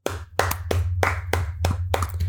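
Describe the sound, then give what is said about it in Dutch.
Rhythmic applause for Rubens Barrichello on a Dutch show, a run of crisp, evenly spaced hand claps over a low steady hum. “Dus gefeliciteerd, Rubens Barrichello. Applausje hiervoor.”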